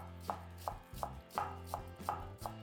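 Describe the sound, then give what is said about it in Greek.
Finely chopping white cabbage with a knife: about seven crisp, evenly spaced chops with a steady rhythm, each a sharp thud of the blade on the board, with no voices. “Λευκό λάχανο, επίσης ψιλοκομμένο.”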